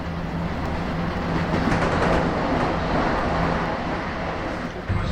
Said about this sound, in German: Am Bahnsteig 3 fährt ein Euro 787 Tiepolo zum München Hauptbahnhof nach Venedig. Bitte Vorsicht!